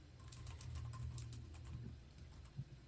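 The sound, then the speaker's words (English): Faint typing on a computer keyboard, with a scattered run of soft, light clicks over a low steady hum and one slightly louder tap near the end. “I gotta do some research here. Was it 2010? I'm trying to type here.”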